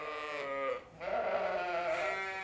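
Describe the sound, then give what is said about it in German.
Sheep bleat at a sheep farm in Aukrug near Neumünster: a loud, wavering bleat is followed after a short pause by a second, longer bleat. “Eine Schäferei in Aukrug bei Neumünster.”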